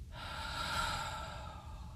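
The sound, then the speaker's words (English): One deep breath, drawn in through the nose and out through the mouth. A soft, airy rush swells and then fades over about two seconds, faint, with no talk. “Breathe in. And breathe out through your mouth.”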